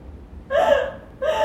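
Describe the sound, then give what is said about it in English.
A person sobs uncontrollably in two short, gasping, voiced catches of breath separated by a brief pause, loud and strained. “here's a small excerpt of me uncontrollably sobbing”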